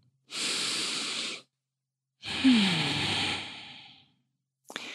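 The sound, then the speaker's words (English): A deep breath taken alone: a smooth, airy inhale lasting about a second, a short pause, then a longer, louder exhale that gradually fades out. “But for right now, just take a nice deep breath.”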